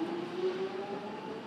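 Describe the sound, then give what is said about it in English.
An underground train running: a steady, loud rumble with a sustained motor whine that climbs slightly in pitch over the brief stretch. “This train terminates at Stratford.”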